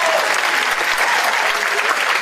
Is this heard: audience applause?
yes